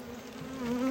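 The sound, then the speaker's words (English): Honeybees buzz at an opened hive in a steady, droning hum that holds one pitch and swells slightly louder toward the end. “That should have given me a clue because there's more bees.”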